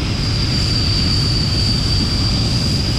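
A medical rescue helicopter flies in to land on a hospital landing pad, heard as a steady, loud engine roar with a constant high whine above the dense rumble.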